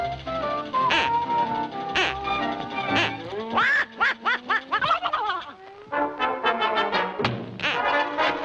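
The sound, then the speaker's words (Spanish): A duck decoy call quacks in a cartoon scene, sounding a long run of nasal, tonal quacks that come in quick bursts, some drawn out and some clipped, loud and continuous. “Un señuelo de pato.”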